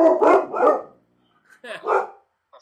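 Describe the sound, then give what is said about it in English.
Dogs bark through an open front window at passersby. Sharp barks come in two short bursts separated by a brief silent gap, loud and clear. “a guest appearance from the dogs. That does not normally happen. This is what happens when I leave the front window open”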